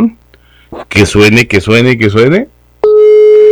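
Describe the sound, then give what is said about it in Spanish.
A telephone line ringing on a call: after a voice speaks, a loud, steady, single-pitched ring tone starts and holds to the end. “Vamos a ver la primera llamadita. Ahí está sonando ya.”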